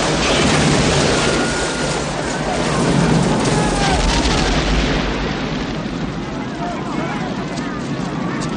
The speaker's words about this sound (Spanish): justo cuando la furgoneta explota en una gran bola de fuego. La explosión hace que muchas personas llegan al suelo.